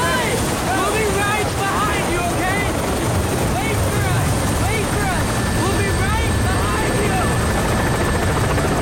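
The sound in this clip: Helicopter taking off during a civilian evacuation from a city under monster attack in a film: a loud, continuous roar of rotor and engine noise that stays dense and steady throughout with no pause.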